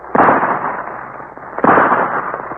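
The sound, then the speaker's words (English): Two gunshots, fired by a sergeant at a bear in a radio drama, ring out about a second and a half apart. Each is a sharp, loud burst trailing into a long, rumbling decay. “Another vicious bear. Shoot, Sergeant.”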